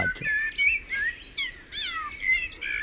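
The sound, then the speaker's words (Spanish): A blackbird from El Hierro in the Canary Islands sings slowly, its fluting, warbled notes separated into distinct syllable-like phrases with short gaps. The song is fairly faint and unaccompanied by voices. “es un mirlo del hierro canario y este tiene una peculiaridad. Si os dais cuenta, canta más despacio y parece que silabea”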